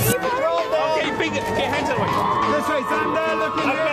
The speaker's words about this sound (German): Zendaya wurde von den Paparazzi so hier begrüßt.